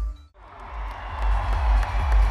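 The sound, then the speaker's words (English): Crowd cheering and clapping as Ireland's team enters the arena at a Special Olympics opening ceremony in Abu Dhabi. A dense, steady roar with a low rumble dips briefly near the start, then swells and holds loud. “Ireland have entered the arena to a massive cheer here in Abu Dhabi.”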